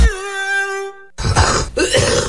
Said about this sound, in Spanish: ¡Qué tos!